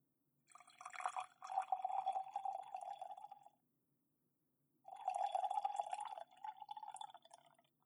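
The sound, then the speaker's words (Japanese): Hot water poured from a teacup into a teapot: two quiet pours of trickling, splashing liquid, each lasting about three seconds, separated by a short silent pause. “それでは、湯飲みのお湯を急須に入れましょう。”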